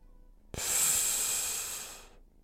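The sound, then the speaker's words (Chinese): A single deep inhalation, taken with eyes closed on an instructor's command during a breathing exercise: an airy hiss that begins abruptly, holds strongly for about a second and a half, then trails off into quiet. “闭上眼睛，按照我的指令呼吸。吸，”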